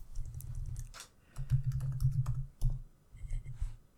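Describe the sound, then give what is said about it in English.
Someone types a Google search on a computer keyboard: quick bursts of faint key clicks, broken by short pauses. “Type in Google who invented sex.”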